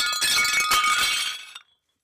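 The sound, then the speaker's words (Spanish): A ceramic figurine breaks with a loud, bright shattering crash and a spray of tinkling fragments that run for about a second and a half, then stop abruptly. No voices are heard. “tengan figuras hechas de cerámica decorando la casa. Y dime si no. Hasta de pronto alguna vez hayas roto una sin querer”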